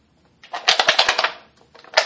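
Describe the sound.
A deck of cards being shuffled in two bursts of rapid, crisp clicking, a longer riffle followed by a brief pause and then a shorter one.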